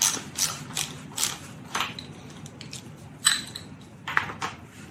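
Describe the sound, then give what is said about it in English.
A 3/8-inch ratchet turning a bolt gives short bursts of rapid pawl clicking in an uneven rhythm, each stroke a quick metallic rattle. The clicks are fairly quiet and heard alone, with no talking. “You thread it in. Use your 3/8 inch ratchet.”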